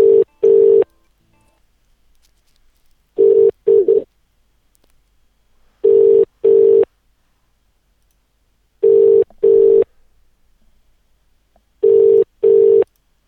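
Paired electronic telephone tones sound as a number is called, five evenly spaced double bursts of a steady mid-pitched tone with near silence between each pair.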